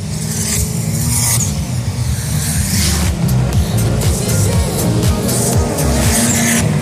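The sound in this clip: Race cars roaring around the track during a motor race, eleven laps in: a loud, unbroken blend of deep engine drone and bright tire hiss, with several passing surges and no voices.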